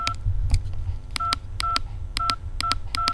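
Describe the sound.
Rapid keypad tones as a mobile phone number is dialled in a hospital: many short, bright beeps in quick, uneven succession over a low, steady background rumble.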